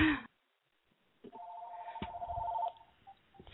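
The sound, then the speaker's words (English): A telephone rings with an incoming call: a steady electronic tone with a faint ticking pulse, then a few short beeps. Faint low sounds sit underneath. “So somebody's calling, and I forgot to turn the phone off. So I apologize for that.”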